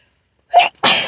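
A single loud sneeze: a short, sharp intake of breath, a brief gap, then an explosive burst of breathy noise that trails off. It stands alone with no talking.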